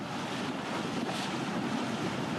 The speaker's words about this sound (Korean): 선착장에서 보트를 타고 바위 위 성모 섬을 찾아갑니다.